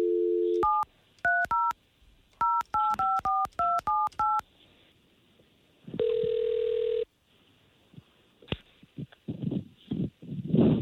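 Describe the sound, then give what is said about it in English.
Touch-tone keypad beeps as a telephone number is dialed for a call: a rapid run of many short, bright dual-tone blips, then a single steady ring tone lasting about a second, followed by faint rustling and soft noises. “So all we're going to do here is try to call her and get you guys talking.”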